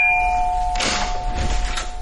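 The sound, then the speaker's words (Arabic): Apartment doorbell ringing in a drama scene: a steady electric bell tone sounds throughout, with a few brighter clanging bursts on top and no voices. “أيوة جاي أهو، والله العظيم هتحرقوا الجرس ده منكم لله.”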